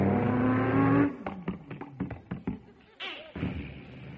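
A car engine holds a steady revving tone, then gives a quick series of sharp clunks as the stick shift throws it into gear, followed by a rougher burst of engine noise as it accelerates away.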